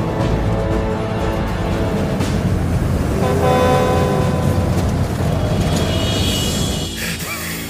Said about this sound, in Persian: برو دنبال ماشین جنگلبانی تخت گاز. کامیونت مرتضی از ماشینای صابر سبقت میگیره.